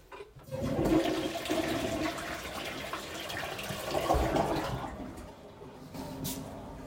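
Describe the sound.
A toilet flushes with a loud, continuous rush of water that swells near the start and again around four seconds, then eases into a quieter, thinner flow of refilling toward the end.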